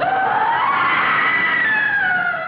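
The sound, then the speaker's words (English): A high-pitched scream from an attic: one long, sustained cry that rises slightly in pitch, then slowly falls. It is loud and continuous throughout, with no talk. “I think that was a scream," Caroline said.”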